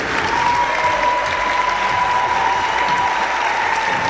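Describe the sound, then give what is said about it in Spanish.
Audience applause for the final participants at an event with groups from Chile and Argentina: dense, steady clapping from a crowd that continues evenly through the whole clip without a break. “Voy a nombrar para que le demos un fuerte aplauso a los últimos participantes.”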